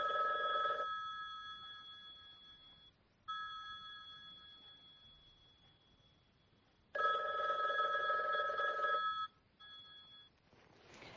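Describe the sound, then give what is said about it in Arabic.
A telephone rings at home, sounding in a few loud, repeated electronic bursts with steady bright tones and short gaps between them. No talk is heard. “بينما انشغلت ماما بالرد على الهاتف تطمئن الأقارب والأصدقاء”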